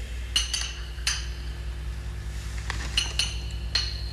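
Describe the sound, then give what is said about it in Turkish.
Glass bottles clink faintly as someone rummages through a cabinet of poisons for one bottle. Several short, bright chinks come in scattered clusters over a low, steady hum. “Şimdi aradığım şişeyi bulup tehlikesizce çıkıp gidersem hiç mesele kalmayacak. Hay aksi neredeydi bu şişe?”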